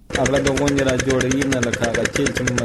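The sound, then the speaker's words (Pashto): A diesel generator drives a pump drawing deep well water to irrigate a four-jarib wheat field in Dand district, Kandahar, making a loud, steady droning hum with rapid rhythmic pulsing throughout. “د کندهار په ډن ولسوالۍ کې خپل څلور جریبه د غنمو کښت د جنراتور په وسیله اوبه کوي”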